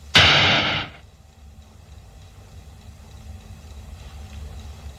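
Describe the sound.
A sci-fi blaster fires at an Althea frutex shrub on a terrace. It makes one loud, hissing burst lasting just under a second, then fades to a faint low hum.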